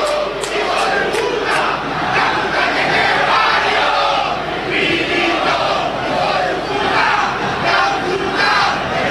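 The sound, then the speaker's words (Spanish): Angry Racing football fans roar in the stadium, a dense crowd of shouting and chanting voices that stays loud and steady throughout. “ante la desesperanza, la bronca, la impotencia de los hinchas de Racing. Escuchen el público de Racing.”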